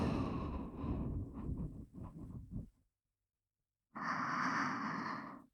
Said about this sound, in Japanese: 口から吐いて、鼻から吸って、